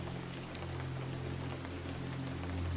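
Steady, soft rain falls around a cozy seaside bookshop, a continuous hiss of patter with no pauses and a low, constant hum beneath it.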